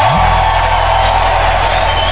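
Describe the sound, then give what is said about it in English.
A church audience cheers and whoops loudly and continuously after being asked to give a big round of applause, with a steady low hum underneath throughout. “we're going to give them a very big round of applause just to appreciate them. It takes a lot of sacrifice. Thank you. If I were you outside, I'll clap for myself too.”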